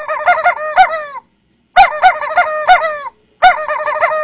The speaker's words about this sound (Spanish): hay una persona que pidió que los pollos le dijeran un taca-taca. Ahí va el pollo.